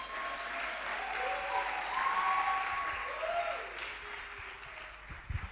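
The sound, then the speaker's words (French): A church audience applauds and cheers in a steady, dense wash of clapping with rising, drawn-out shouts of acclaim, fairly loud throughout and easing slightly toward the end. “Si tu as la victoire, est-ce que tu peux acclamer plus fort? Si tu es né de Dieu, acclame plus fort.”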